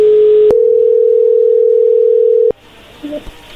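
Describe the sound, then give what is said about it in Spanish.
A steady telephone line tone on a call being placed, holding one even pitch for about two seconds, broken by a faint click, then cut off abruptly into quiet line noise. “márcale y ahorita te va a contestar, vas a ver. A ver, y entra ahí la llamada.”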